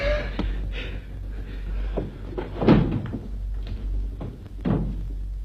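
A door being opened, heard as a few dull thumps and clunks spread over several seconds, with no talking.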